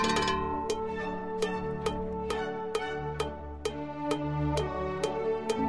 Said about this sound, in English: say you want to insert the sound of a cowbell into your favorite song